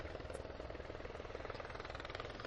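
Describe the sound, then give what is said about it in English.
The whirring of a helicopter rotor as it lands about 300 yards away at a football event. It is a continuous, rapid, evenly pulsing drone, steady and fairly faint throughout, with no talk. “If you hear that whirring, that's a helicopter landing about 300 yards to our right.”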